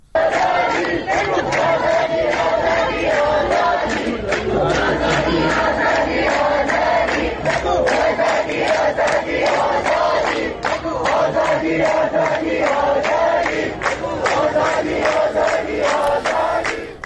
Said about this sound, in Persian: هم دارن شعار میدن که هر 1 نفر کشته شه 1000 نفر پشته شه.